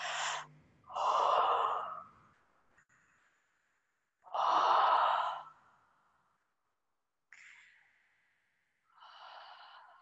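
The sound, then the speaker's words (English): Deep breaths during a guided relaxation: a few slow, audible inhales and long exhales, loud and breathy, separated by quiet pauses. “Take a deep breath.”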